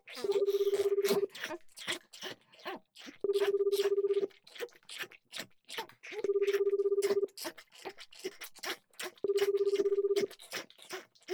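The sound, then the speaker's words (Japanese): Ringback tone of a phone call to an older sister: a steady two-pitch tone sounds four times, about one second each with regular gaps, over constant mixed noise. “次はお姉ちゃんにお電話かけてみましょうか。”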